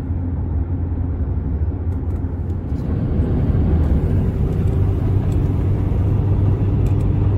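Steady low roar of an airliner rolling down a wide runway after touchdown, heard from inside the plane at about 80, a continuous rumble that grows slightly louder partway through.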